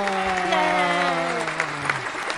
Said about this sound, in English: That was kind of long, but that's all our guests, everybody. Give them a round of applause.